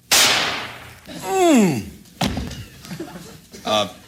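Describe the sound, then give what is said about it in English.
A single sharp shot from a .22 gun goes off as a staged drama sound effect, a short loud crack at the start, followed by voices talking. “Well, as a matter of fact, I got a gun right here. If you'd like to just kind of take a shot at me. It's only a .22, but just point it right at my chest and let me have it.”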